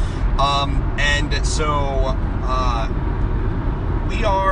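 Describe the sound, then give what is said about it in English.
Steady low road rumble inside a car driving to the grandparents' house, running continuously beneath voices talking. “I am joined by my two boys while we're driving to our grandparents' house.”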